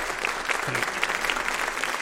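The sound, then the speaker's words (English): An audience applauds at a live event, a brief burst of dense, even clapping from a crowd. “big round of applause to Susan Murray”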